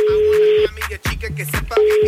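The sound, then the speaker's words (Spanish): A steady, single-pitched telephone dial tone sounds, is interrupted in the middle by a few short dialing tones and clicks, then resumes and holds to the end. “Así que a ver, vamos a marcar.”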